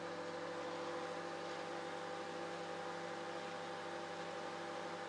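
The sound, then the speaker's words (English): A microwave oven runs on high power while cooking salt-and-pepper popcorn, giving a steady, faint, unbroken mechanical hum with a fan-like hiss and no clear popping. “Let's put it on for another minute. High power, 4 minutes.”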